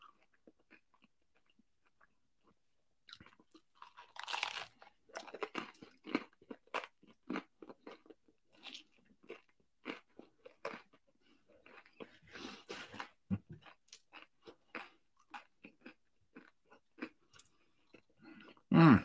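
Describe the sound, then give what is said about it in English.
Crunching and chewing as someone eats steak and lobster, many soft, irregular bites and smacks, quiet overall, with a sharper, louder burst at the very end. “Seriously, I commend anybody who watches this with all the gross, like, eating noises.”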